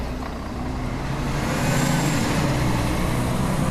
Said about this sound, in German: Nach ein paar Stunden Ruhe in Matalascañas fahren Einheimische und Besucher mit dem Shuttlebus nach El Rocío.